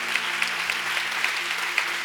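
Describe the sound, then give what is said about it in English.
A church audience claps during a service, a dense, steady patter of many hands at moderate loudness, with a few sharper claps standing out over two seconds. “Come on, clap your hands if you believe it.”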